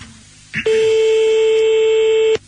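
A telephone is dialled for a call. A brief click is followed by a loud, steady electronic tone that holds for almost two seconds, then cuts off sharply.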